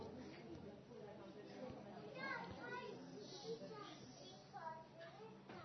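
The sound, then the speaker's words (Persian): Children talk and play at a gathering, a faint, continuous murmur of overlapping young voices with occasional brighter calls. “بانوان محبت کنن بچه‌هاشون رو ساکت کنن اگر نمیتونن بفرستن از مجلس بیرون.”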